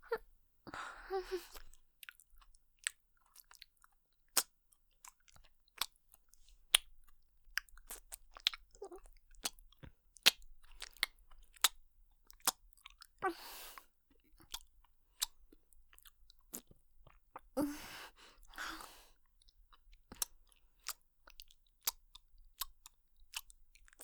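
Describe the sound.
Someone eats a half-eaten croquette with faint, crisp crunching and soft wet chewing. Many sharp clicks come at an uneven pace, with a few louder breathy moments.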